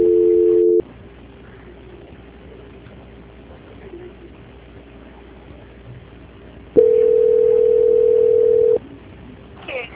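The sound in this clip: A telephone ringing tone sounds while a call is transferred: a short steady tone, a long stretch of faint line hum, then a louder two-second tone burst.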